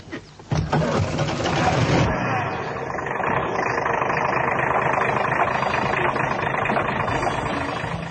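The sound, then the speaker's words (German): A car engine drives through a partly burning forest. A short thump at the start is followed by a loud, steady, dense roar that continues without a break to the end. “Kenneth fuhr durch den teilweise brennenden Wald. Mühsam kämpfte er sich an die Waldhütte heran, die am Rande einer Lichtung lag.”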